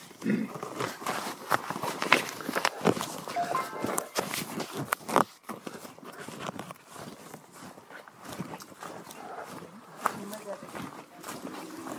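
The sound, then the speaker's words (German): A group walks down a step, with many scuffing and tapping footsteps that overlap continuously beneath people talking throughout. “So, dann gehen wir eine Stufe tiefer.”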